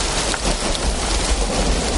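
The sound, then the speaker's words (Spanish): Heavy rain pouring over green hilly countryside, a loud, dense, constant hiss with a spattering texture that stays even throughout, with no voices. “Una lluvia intensa cae al rato”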